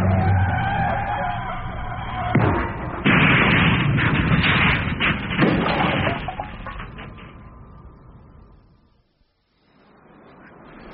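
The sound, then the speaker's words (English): Loud, dense bursts of gunfire riddle a car and shoot out its tires, mixed with engine noise and skidding as the car brakes. The din holds strong, fades to near silence, then briefly swells again. “Is he mad? Shooting up his own car? Don't worry. I'm sure he's got a dozen more at home just like it. They hit the tires. Brake, damn it.”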